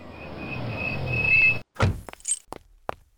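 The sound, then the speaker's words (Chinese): A black driverless car speeds up to a white house: a whirring engine-like rush with a thin high whine builds for about a second and a half and cuts off abruptly, followed by a heavy thunk and a few short, sharp clicks. “一辆黑色的无人驾驶车辆飞速地从山下驶入了白色洋房。”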